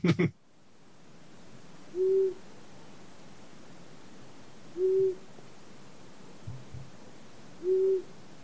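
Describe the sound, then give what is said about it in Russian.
Low, steady hoots of a long-eared owl, three evenly spaced calls several seconds apart, each a short mellow tone heard alone over faint background hiss. “А крик ушастой совы, он немножечко похож, но он скорее такой «у-у-у-у-у».”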